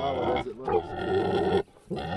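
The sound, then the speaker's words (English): Grunting and vocal noises from a 700-pound red wattle pig stuck in a mud pit: a few voiced, harmonic calls, with a short gap of near quiet before the last one. “a red wattle pig, is stuck in a mud pit. All 700 pounds of him.”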